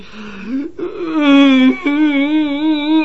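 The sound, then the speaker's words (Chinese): A man wails and cries in a long, quavering, sustained voice, with a brief catch of breath near the start and another short break midway before the moaning carries on. “好吧，他哭了，这一哭全屋子人都吓傻了。”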